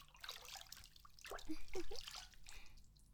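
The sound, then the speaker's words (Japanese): Water sloshing and splashing as a body falls back into hot bath water, a broad wash of liquid noise with trickles and drips that swells in the middle and then settles. “次はそのままお湯の中にザプーンと倒れてみよっか”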